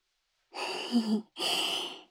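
A person breathes deeply during an acupressure session on the crown of the head, producing two long, soft, airy breath sounds separated by a short pause, heard alone without speech.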